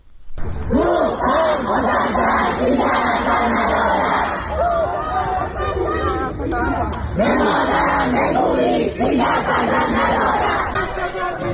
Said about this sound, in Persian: این صدای اعتراض دانشجویان دانشگاه علامه طباطبایی در تهران است.